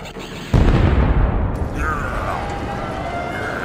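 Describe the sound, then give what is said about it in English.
Missiles are fired in a space battle: a sudden heavy blast erupts and settles into a loud, sustained rumbling roar, and a thin whistling tone sweeps through it partway along. “As Commander Ackbar leads his men to the battle, he awaits until the perfect moment to fire all missiles. Fire!”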